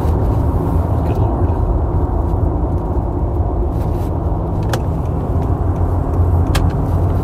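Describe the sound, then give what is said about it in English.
A car drives along a road with a steady, loud low rumble and hiss that barely changes, marked by a couple of faint clicks and no voices. “Sorry, somebody was doing something funky driving on the road.”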